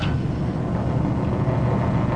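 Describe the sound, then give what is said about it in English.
A vacuum pump runs inside a cabinet alongside an air compressor, giving off a steady, even low mechanical rumble and hum that holds at a constant level throughout, with no voices. “the vacuum pump is going. The patient puts this thing over their head, and then the vacuum will begin sucking out those clogged pores in your head.”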